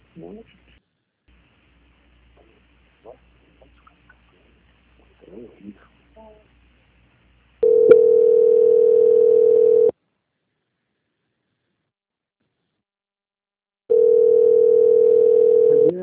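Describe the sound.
A telephone tone plays while a call is transferred to a quality-control department: two long, steady hums separated by silence, preceded by a few faint clicks and scuffs on the line.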